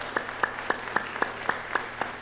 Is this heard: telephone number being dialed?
no